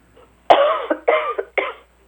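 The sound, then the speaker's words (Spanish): Three harsh coughs come in quick succession during a casual Spanish-language chat. Each is a loud, rough burst that trails off before the next, and no talk is heard over them. “y tose igualito a Gilma”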